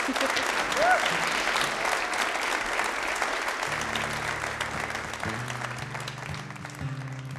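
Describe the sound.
Audience applause for a performer at a live radio show, with a sustained wash of many hands clapping that holds steady and fairly loud for the whole clip.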